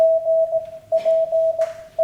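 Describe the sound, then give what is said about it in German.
Morse code tones: a single steady, mid-pitched beep keyed on and off, with short and longer gaps breaking it into a run of dashes. Brief hissy bursts of noise sit over the tone in two places. “Morsecode ist super, ja.”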